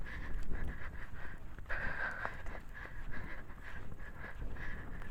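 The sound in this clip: A horse named Pio trots under a rider, its hooves beating out a soft, regular clip-clop. Snorting breaths mix with the hoofbeats, and the whole sound stays faint throughout.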